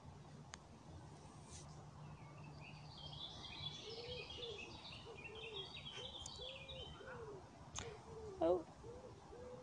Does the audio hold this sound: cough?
no